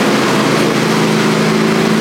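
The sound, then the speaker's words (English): Lawn mower engine droning loudly and steadily as the mower rolls out of a garage, a constant rough hum with a low buzzing tone that never pauses. “So we'll start up the lawnmower here.”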